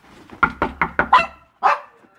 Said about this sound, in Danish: Hvad så, hund? Hej så, lille bitte hund. Hvor er du sød?